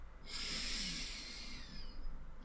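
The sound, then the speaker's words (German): A deep breath drawn in slowly near the end of a guided relaxation, heard as a steady airy hiss that swells and holds for about two seconds, alone with no talk. “Und jetzt zum Ende atme noch einmal tief ein”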